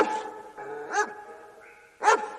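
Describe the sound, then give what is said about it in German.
A dog gives two short, sharp barks about a second apart, with whining, tonal vocal sounds between and before them. The barks are loud and clear, and no one talks. “Entfernter verwandte Rassen reagieren eher mit Bellen.”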